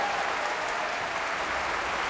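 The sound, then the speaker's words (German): Loud applause from a concert audience for the pianist after Beethoven's third piano concerto with the Bavarian Radio Symphony Orchestra in Munich. Dense, even clapping continues at a steady level throughout. “Jubel und großer Applaus für den Pianisten Rudolf Buchbinder.”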